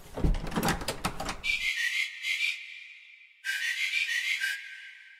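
Rattling and knocking of a stuck door being forced, then two stretches of high, squealing creaks separated by a short silence.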